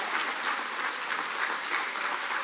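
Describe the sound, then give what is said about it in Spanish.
Dense, steady applause from an audience at a religious gathering, clapping in praise of the Lord. It holds an even, fairly soft wash of many hands throughout, with no clear voices. “Aplauso para el Señor, que nos lleva la salvación y libera a nuestra familia.”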